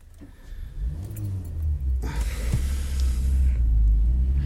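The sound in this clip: A car drives off with a low engine rumble. It swells louder after about two seconds as a broad rushing road noise joins the steady throbbing drone.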